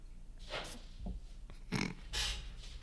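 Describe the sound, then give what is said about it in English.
A dog chases a piece of food, giving a few short, breathy snorts and snuffles with scuffling in between. The sounds come in uneven bursts at a low to moderate level. “sorry, my dog thinks one piece of food is worth chasing.”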